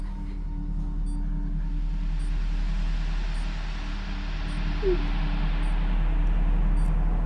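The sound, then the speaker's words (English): A car driving out of an underground car park, heard as a low, even engine rumble with broad road noise that holds steady throughout. “As Jonathan drives from the underground car park”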